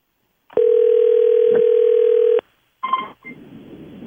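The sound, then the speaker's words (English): Telephone ringing tone heard while a call is placed: one loud, steady, even tone lasting nearly two seconds, then a short break and a few brief clicks and rustling noises. “Let's call Irene and see how this goes.”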